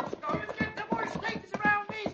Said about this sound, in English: I'm riding through the center of them.